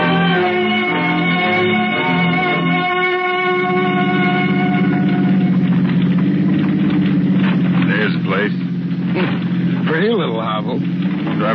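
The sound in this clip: A car engine drones with a steady low hum and shifts in tone after the first few seconds, settling into a more even idle while voices are heard over it.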